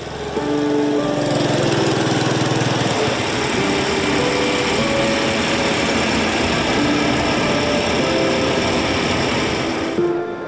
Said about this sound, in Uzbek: Botkenning Samarqandlik qishlog'ida tong sukunatni mirobning mototsikli shovqini buzadi.